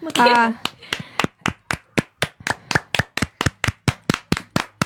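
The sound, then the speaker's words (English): Hands clapping in a round of applause by a small group, about twenty sharp, evenly spaced claps in a steady rhythm, starting right after a brief burst of voice. “Let's give a round of applause for Bonnie”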